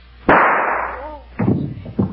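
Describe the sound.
A gunshot as a woman shoots herself: one sharp, loud crack with a long, noisy decay, followed by a few further short bursts.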